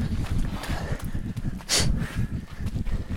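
Footsteps climb the last flight of stairs in a steady series of heavy footfalls with low, thumping impacts and some rustling noise.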